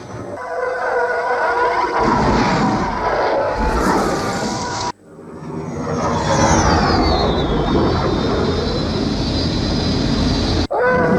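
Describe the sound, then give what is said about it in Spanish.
A spaceship takeoff sound effect: a loud, sustained roaring rumble that cuts off abruptly partway through, then swells back into a second long roar with a descending whistling tone above it, before ending suddenly. “Despega la nave espacial.”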